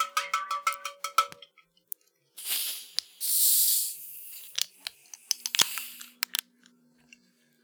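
Cotton candy soda bottles being cracked open give off two bursts of fizzy hiss in the middle. Many sharp clinks and taps come before and after them.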